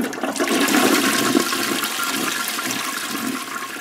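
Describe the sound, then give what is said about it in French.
Toilet flush: a steady rush of draining water runs loud and unbroken for about four seconds, with no voices. “Ben, pour les petites commissions, je tire la chasse toutes les 3 fois.”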